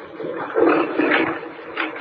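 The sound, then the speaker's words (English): Grinding and scraping as a whole section of ice swings aside, a rough, steady, mid-pitched rumble that swells slightly in the middle. “Kent, what's that? That grinding. Wait a moment, don't move. Professor, behind you. Back at the altar. Good heavens, what is it? In the light of the fire, look. Professor, a whole section of the ice is swinging to one side.”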